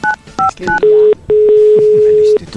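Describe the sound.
Three quick dual-tone telephone keypad beeps, then a short steady tone and a longer sustained one, with voices talking underneath throughout.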